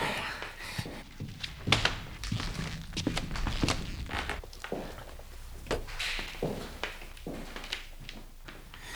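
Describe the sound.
Footsteps heading down a narrow stone staircase into a wine cellar, many irregular thuds and scuffs spread over about nine seconds, with a few heavier knocks among them.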